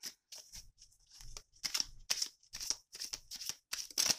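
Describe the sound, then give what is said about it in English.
Tarot cards drawn and handled from a deck, giving many short, crisp papery rustles and flicks in an uneven rhythm, fairly quiet, with no talk. “I'm gonna pull a couple cards here.”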